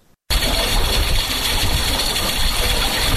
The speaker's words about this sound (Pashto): دغه ژغ د اوبو څاڅکي سیستم دی چې د انرژي یا اوبو د ضایعاتو د مخنیوي لپاره یو مورژنه چاره بلل کیږي.